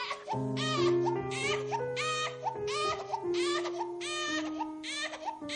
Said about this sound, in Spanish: El pequeño llora con fuerza, pero pronto se calma al contacto con su madre.